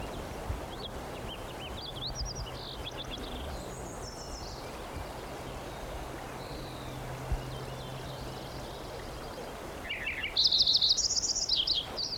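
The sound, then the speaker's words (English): Lincoln's sparrow song: a few faint chirping notes early on, then a louder, brighter burst of high trilled song near the end, all over a steady hiss of outdoor background noise. “Lincoln Sparrow number 4 again.”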